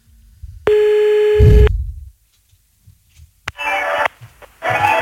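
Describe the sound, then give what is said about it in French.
Telephone tone from a call being placed: a steady buzzing tone held for about a second, then a sharp click and rougher, noisy bursts on the line. “Allez, on y va, on appelle.”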